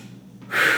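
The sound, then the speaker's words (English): A single deep inhaled breath from a person, a soft airy rush that swells loudly in the second half and holds steady to the end. “you took a deep breath there.”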